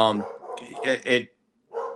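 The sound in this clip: Dog barking in a few short, sharp bursts, with a brief silent gap before a final bark near the end.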